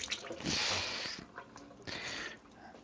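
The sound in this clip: Water splashing over a boiled egg as its shell is rinsed off, two gushing bursts with a quieter, wet trickle between them.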